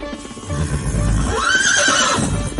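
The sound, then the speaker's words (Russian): A horse neighs furiously in one loud, sustained whinny whose pitch arches up and then falls away, over a low rumbling background. “Конь издал яростный вопль, подобный рычанию льва,”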